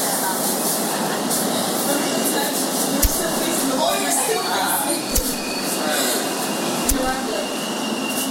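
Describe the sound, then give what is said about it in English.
A train arrives at Morgan Station. A steady rumbling roar of the carriages is broken by three sharp metallic clacks at irregular intervals. “Arriving at Morgan Station.”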